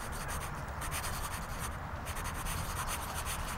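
A pen scratches across paper as a note is written: faint, steady rubbing and scraping strokes that run continuously, with no talking.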